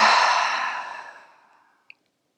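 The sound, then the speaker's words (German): A deep exhale through the mouth: one long breathy sigh that starts strong and fades away over about a second and a half, followed by a tiny faint click. “Und beim Ausatmen durch den Mund lässt du alles los.”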